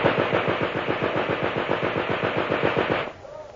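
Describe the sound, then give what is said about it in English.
A machine gun fires one rapid, steady burst of loud shots lasting about three seconds, then stops abruptly, leaving only faint background noise. “Machine gun!”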